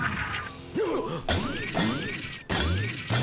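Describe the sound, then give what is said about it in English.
Coin-ejecting toy sounding its jackpot effect: electronic chirps and sweeping tones repeat over clattering, crashing bursts in a busy, loud sequence. “and then it just showers down in a waterfall of coinage. This is a really sweet toy. It's making jackpot noises.”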